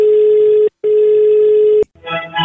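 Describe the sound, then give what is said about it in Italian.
Telephone tones as a call is placed: a steady, loud dial tone broken by two short gaps, then a quick run of dialing beeps at the end. “Ma andiamo a chiamare, vai.”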